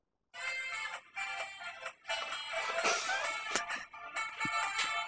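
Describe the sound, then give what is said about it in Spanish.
A phone ringtone playing a song with an epic saxophone part: loud, continuous music full of sustained tonal lines, starting after a brief silence, with no voices over it. “vamos a escuchar qué era lo que estaba sonando en el teléfono de este chabón. Pícalo más tipo por el medio, que es cuando empieza el saxofón épico.”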